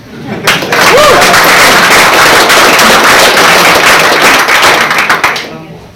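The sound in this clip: Audience applause after short lightning talks at a tech gathering: dense, loud, continuous clapping that swells up quickly, holds for several seconds and tapers off at the end.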